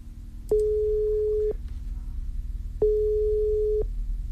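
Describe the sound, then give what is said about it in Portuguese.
The ringing tone of an outgoing telephone call: two steady, low-pitched beeps, each about a second long, separated by a short pause over a faint background hum. “Vamos ver se ela vai atender, se vai dar caixa postal. Vamos ouvir aqui. Vamos chamá-la, hein?”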